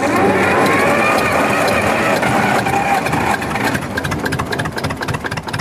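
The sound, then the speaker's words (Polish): Loud, steady rumble of a running single-cylinder Ursus C45 tractor engine, a 10-litre, 45-horsepower copy of a century-old design, continuing without talk and becoming slightly more uneven and pulsing toward the end. “To jest Ursus C45, czyli pojazd zrobiony jako kopia tych, które powstały no równo 100 lat temu. Jednocylindrowy.”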